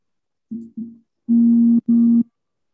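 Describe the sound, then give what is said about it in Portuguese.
Phone call-waiting tone signals an incoming call: a low, steady electronic beep heard alone, two short pulses followed by two longer ones, moderately loud and even in pitch. “Só um momento que a Thaís está me ligando aqui.”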